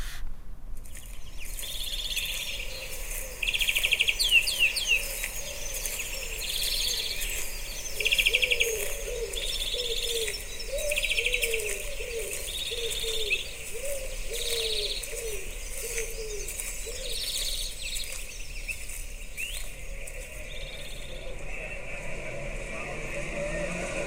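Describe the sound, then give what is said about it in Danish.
Forest ambience with birdsong: a dove coos in a steady repeating pattern while smaller birds chirp at regular intervals over a constant soft background hiss. “Vi starter ude i en skov, og så går vi ind i byen.”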